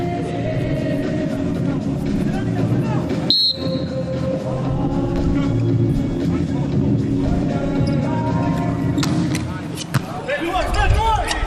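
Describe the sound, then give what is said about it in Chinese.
A volleyball serve by a Chinese team player in the third set gives one sharp hit of the ball over steady arena crowd noise, with commentary running throughout. “中国队现在在第三局还落后两分，彭世坤来发球。”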